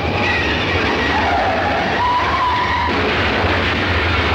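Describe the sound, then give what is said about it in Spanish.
Train brakes squeal after the driver pulls the brake lever just before a derailment: a loud, continuous rumbling roar with thin high metallic squeals drifting across it throughout, no voices. “El maquinista ve la rotura y acciona la palanca de freno.”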